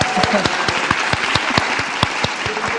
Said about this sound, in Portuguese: E vamos dar umas palmadas